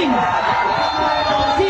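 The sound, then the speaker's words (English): A crowd booing a speaker on stage at an event, a loud, continuous roar of many voices with rough yelling throughout. “Mamdani getting booed off the stage.”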